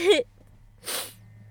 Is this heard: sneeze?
yes

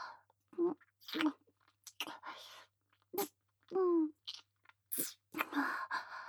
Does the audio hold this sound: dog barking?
no

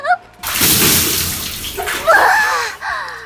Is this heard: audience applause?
no

